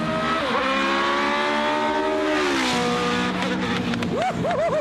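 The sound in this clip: A Formula One car's V8 engine revs at high rpm with a loud, continuous, harmonic-rich howl. The pitch holds, dips, then settles, and a few quick rev blips come near the end.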